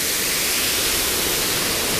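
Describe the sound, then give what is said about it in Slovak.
Steady, dense rushing roar of a waterfall running full of water after rainy weather, unbroken and even in loudness throughout, with no voices. “No, naozaj som sa nemýlil, vodopád má skutočne vody dosť.”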